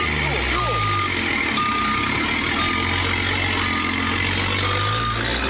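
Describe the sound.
Reversing beeps sound from a chiva party bus backing up with its engine running: a steady series of high electronic beeps about once a second over a low engine rumble, with voices calling out over it.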